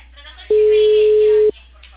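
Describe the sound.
A telephone line tone while a call is placed: a single loud, steady beep lasting about one second at a level pitch, set over a faint low hum.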